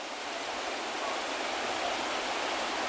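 Floodwater flows in a river in Nan province, a murky reddish current, giving a steady, dense rushing hiss with no breaks or distinct splashes.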